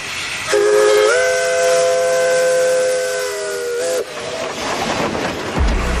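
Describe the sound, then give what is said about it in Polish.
Steam train whistle blowing one long, sustained chord-like blast of several seconds over steady steam hiss, then cutting off and giving way to rumbling train noise. “wskakujemy do naszego zagadkowego pociągu, aby zdążyć na nasze”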